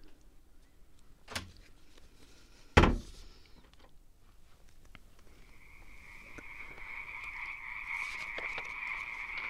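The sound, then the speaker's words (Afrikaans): A door being pulled shut: a faint click, then a sharp, heavy thud. A steady, croaking frog-like drone slowly swells in afterwards and holds to the end. “Ek trek die deur agter my toe.”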